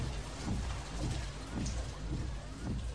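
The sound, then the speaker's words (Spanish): Rain falling at night, a dense, continuous patter and hiss with a low rumble underneath, steady and fairly quiet throughout. “Era de noche y llovía.”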